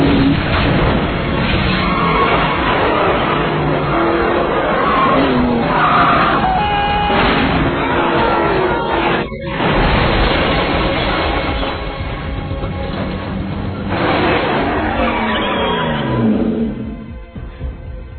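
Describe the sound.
A racing car driven fast with skidding tires makes a loud, continuous roar for the whole stretch, streaked with high tonal squeals and a brief dip midway.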